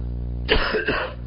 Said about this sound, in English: Excuse me, I don't have a cough button right now.